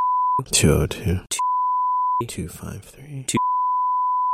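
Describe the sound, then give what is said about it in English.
A steady, high-pitched electronic bleep censors a phone number being read out. Three stretches of flat tone alternate with two short bursts of speech, so the bleep and the voice trade off rather than overlap. “We'll bleep it out.”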